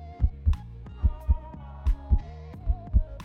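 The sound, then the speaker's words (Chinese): Heartbeat sounds in a steady rhythm: four soft, low double thumps in lub-dub pairs over a faint low hum. “试着闭上眼睛，让视觉重新归于黑暗。最先放大的通常会是听觉，心跳起搏声，”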